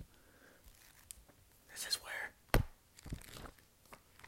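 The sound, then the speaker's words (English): Notebook pages flipped by hand give a few crisp, papery rustles and flicks in brief clustered bursts, fairly soft against a quiet background. “I'm just flipping through the pages.”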